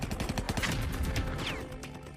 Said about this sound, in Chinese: 就在这个时候，在东陵制高点天柱山方向，突然响起了连续性的爆炸声，